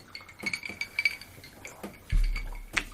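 Glasses clink together in a toast, a scattering of light, high-pitched clinks, faint and quiet.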